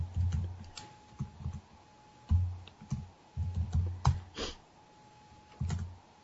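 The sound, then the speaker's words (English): Typing on a computer keyboard during a tabletop role-playing game session: many light, quick key clicks in irregular bursts with short pauses, alone and fairly faint, over a thin steady tone. “Let me type that in.”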